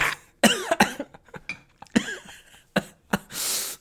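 Someone coughs after swallowing the wrong way: many rough, strained coughs and voiced throat sounds in an irregular sputtering burst, fairly loud, with no speech.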